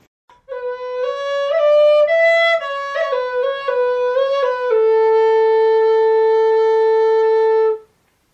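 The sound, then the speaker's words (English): A svirel, a Russian wooden flute made of ash wood, plays alone: a breathy, clear tone moves through a short phrase of shifting notes, then settles into one long, steady held note. “The one I like the most is a wind instrument called the svirel. It's a wooden flute that is made out of ash trees.”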